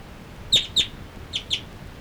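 Two birds calling as they fly from perch to perch: four short, high chirps in two close pairs, faint against a quiet background.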